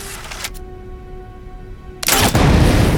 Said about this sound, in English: Moving to a shooting range, Gale stands at the head of an aisle, peers through the weapon's scope, and fires at a target.